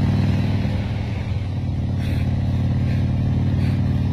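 Motorcycle engine running as a steady, loud, low mechanical drone that holds an even level throughout, with no clear rise in revs.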